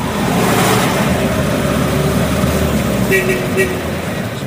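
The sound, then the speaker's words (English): Steady rumble of a 1951 Chevrolet cruising at about 65 mph with the windows rolled down in Havana, a constant engine drone mixed with road and wind noise, loud and unbroken throughout. “I'm sitting in a 1951 Chevy. It's going about 65 miles an hour.”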